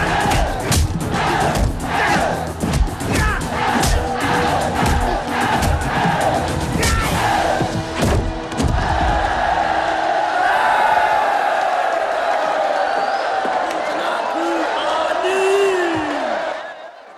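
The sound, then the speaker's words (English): A huge crowd roars, shouts and cheers while two young men fight in a ring. Dense, loud overlapping voices fill the first ten seconds, then ease into a steadier, thinner crowd noise. “A huge crowd watches two young men fighting in a ring.”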